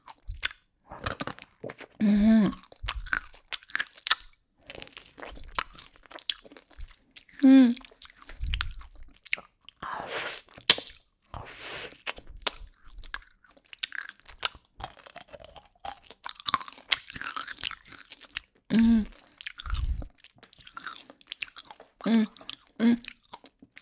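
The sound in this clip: Chewing on crunchy candy: many sharp, irregular crunches and bites with a voice speaking briefly between them.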